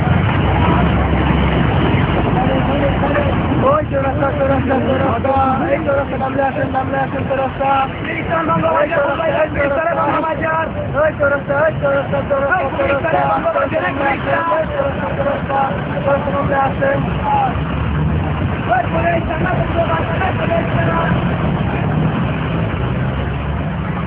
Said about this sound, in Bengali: তারপর বাস আবার চড়তে শুরু করল।